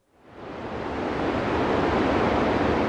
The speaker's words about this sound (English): That's the sound of water roaring down Oroville's crippled concrete spillway at more than 100,000 cubic feet per second in February.